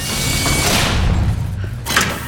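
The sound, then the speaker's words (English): A lift gate closing, a loud, continuous rumbling and grinding with a heavier thud near the end. “The gate closes.”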